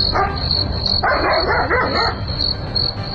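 A dog barks in a brief cluster of rough barks near the middle, set against a constant shrill, pulsing insect-like chirring that runs throughout.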